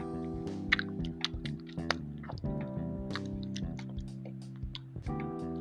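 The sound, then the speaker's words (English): Chewing and crunching on a dessert, with many sharp little bites and crackles over steady sustained musical tones, all fairly quiet. “I'm eating that right now.”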